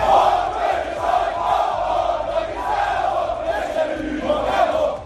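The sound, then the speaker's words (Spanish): A dense football crowd roars and chants in a Budapest street before a Hungary–Portugal match, a continuous loud wall of massed voices that swells slightly in places. “Va a haber más de 60.000 espectadores que ya suenan así en la calle.”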